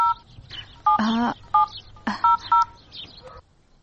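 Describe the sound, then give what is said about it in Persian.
Touch-tone telephone number being dialed: a quick, uneven series of short key beeps, with a few louder clicks and bursts between them. “تو صبرم، یال به فاطمه زنگ میزنم.”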